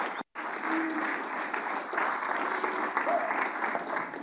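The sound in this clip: A church audience applauds to welcome a speaker to the stage, with steady, dense clapping that fills the whole stretch apart from a brief gap near the start.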